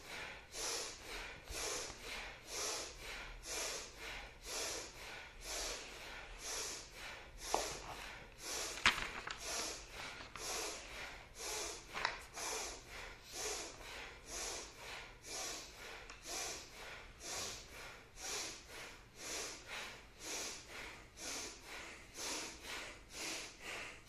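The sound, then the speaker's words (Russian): Forceful, rapid belly breathing during a seated breathing exercise. Many sharp exhalation bursts repeat in an even, steady rhythm throughout, loud and unbroken, with no talking. “Мощно-мощно дышим. Для этого сидим удобно, чтобы у нас нижние ребра были впереди. Животом дышим.”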